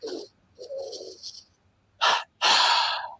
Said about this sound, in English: those breaths are split between belly and chest. So it goes one in the belly, second in the chest, like this